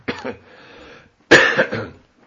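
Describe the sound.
Coughing from a person amid casual conversation: a short double cough, then after a pause a louder, rougher burst trailing off.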